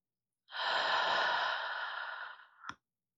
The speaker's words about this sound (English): Just breathe. Deep breaths, honey. In and out.